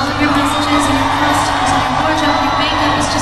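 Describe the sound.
Fans cheer at a concert in London's O2 Arena with a loud, continuous wall of crowd noise. Whoops and shouts rise out of the roar and it stays steady throughout.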